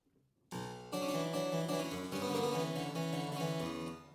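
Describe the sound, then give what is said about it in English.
Harpsichord played on the upper manual with a single set of strings: a few plucked notes and chords ring out in a bright, metallic but fairly gentle tone, with overtones sustaining until the end. “And so this is what it would sound like on the upper manual.”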